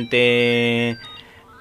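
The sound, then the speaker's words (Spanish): A mobile phone call sound breaks in as a single loud, buzzy electronic tone lasting nearly a second. It then cuts off, leaving faint, quieter noises behind. “perdonen por la llamada telefónica”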